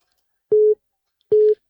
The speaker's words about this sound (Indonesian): Oh, oke, tiba-tiba terputus ya. Bisa dicoba lagi di line telepon ini ya.